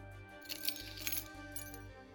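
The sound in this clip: Keys jangle as the key to the Grey Room is handed over, giving a few light metallic clinks over a steady musical background.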